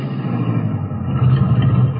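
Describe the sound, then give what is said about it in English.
A steady, low engine rumble from a car with a flat rear tire pulling over on an old road, a continuous droning hum with no clear breaks. “The car feels funny. Must be this old road. No, it ain't the road. Feels like the back tire's flat. Maybe I better stop.”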